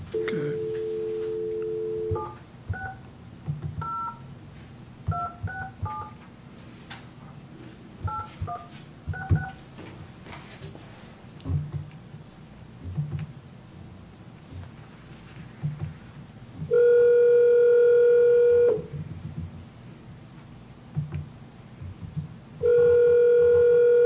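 Touch-tone keypad beeps as a telephone call is dialed: a quick series of short dual-tone presses. Long steady ringing tones follow on the line, all fairly faint.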